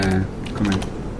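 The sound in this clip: Computer keyboard typing as a command is entered, a few quick clicks under people talking.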